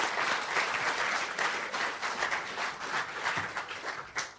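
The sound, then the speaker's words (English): Warm applause from an audience welcoming a guest at a Christian gathering: dense, steady clapping that holds at an even, fairly loud level for the whole stretch, fading slightly near the end. “put our hands together and give Lisa Harrison a really, really warm welcome”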